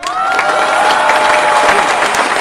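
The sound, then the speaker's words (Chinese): Loud audience applause and cheering for a performer on a children's television show, with dense, continuous clapping and scattered shouts sustained at an even level. “同样把热烈的掌声送给我们的穆妮莎。”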